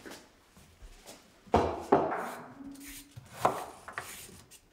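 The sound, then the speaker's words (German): A peeler scrapes carrots in a kitchen in a few short, rasping strokes, with soft knocks and quiet gaps between them. “Jetzt schälen wir die Möhren.”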